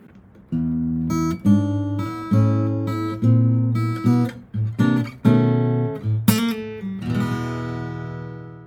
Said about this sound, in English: one cool 12-bar turnaround lick, and it sounds like this.